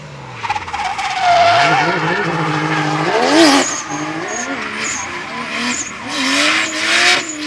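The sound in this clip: A drifting car at a drift competition screeches with loud, sustained tyre squeal over a revving engine whose pitch sweeps up and down, and the skids continue throughout.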